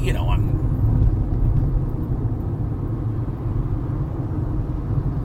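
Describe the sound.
Steady low road rumble from inside a car being driven, a dense continuous hum that stays at an even, fairly loud level throughout.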